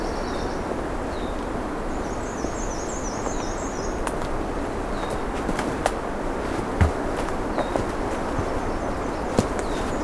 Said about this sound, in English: This is something we haven't heard much of around here. I think there's a red-winged blackbird calling.